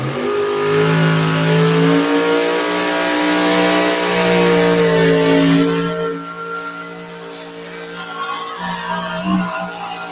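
A pulling vehicle roars down a pulling track, its loud engine drone carrying strong harmonic tones that waver in pitch, easing off past the midpoint before surging again.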